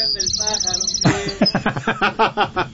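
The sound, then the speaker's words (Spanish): Small birds chirp close by: a quick run of thin, high, repeated chirps fills the opening second, then people talk over the rest. “¿Y ahora por qué los pajaritos?”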